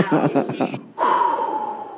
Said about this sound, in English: Let me take a breath.